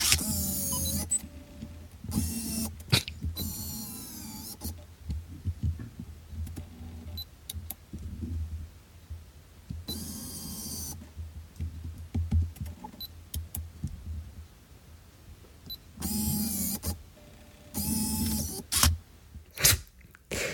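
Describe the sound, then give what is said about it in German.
A 2002 Fujifilm FinePix F601 Zoom digital camera powers on, zooms to its longest and shortest focal lengths, autofocuses, shoots and switches off: short whirring motor bursts and sharp clicks separated by quiet gaps. “Fujifilm Feinpix F601. Ja, und das ist der Sound einschalten, Zoom auf längste Brennweite, Autofokus und auslösen, Zoom auf kürzeste Brennweite, Autofokus und auslösen und natürlich ausschalten.”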